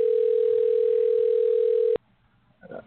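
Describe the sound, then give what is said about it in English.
A telephone dial tone sounds while a call is being dialed: one steady, unbroken tone held at a single pitch for about two seconds, then cut off abruptly, followed by a short faint noise. “We're dialing our guest, Brian.”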